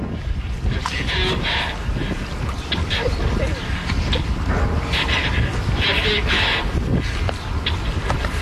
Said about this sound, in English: That's the sound of someone driving a working replica of the turtle.